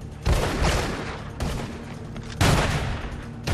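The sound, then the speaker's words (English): Gunfire from 9mm pistols and steampunk-style stun guns in an action film scene, heard as four loud bursts of rapid shots spaced roughly a second apart. “And again, a mixture of 9mm and stun guns.”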